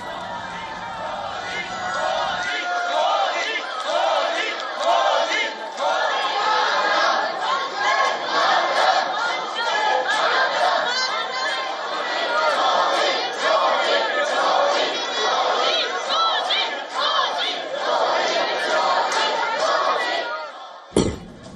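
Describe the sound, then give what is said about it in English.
Indian diaspora crowd in Melbourne chanting slogans to welcome Prime Minister Modi: many voices shouting in loud, rhythmic, sustained chants with cheering, continuing throughout before cutting off near the end. “A large number of community members gathered to welcome the Prime Minister, chanting slogans.”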